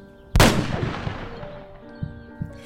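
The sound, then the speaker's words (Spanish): One loud, sharp gunshot cracks out on a farm, fired at a target on a wall. Its crack has a long decaying tail, followed by a couple of faint, lighter thumps. “¡Le di! ¡Le di! ¡Soy la reina del tiro!”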